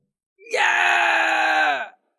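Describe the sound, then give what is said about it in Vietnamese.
A man shouts loudly in one long, sustained, harsh yell of steady pitch lasting well over a second, heard alone and ending abruptly. “Chí Tùng ám sát hét lớn và hiện nguyên hình”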